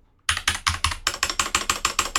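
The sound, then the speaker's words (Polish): Keys are pressed repeatedly on a locked computer keyboard, many crisp, evenly spaced clicks in a steady rhythm after a brief silence, with no talking. “naciskamy sobie Insert Ctrl F1. Włączono blokadę klawiatury. I teraz próbuję coś naciskać.”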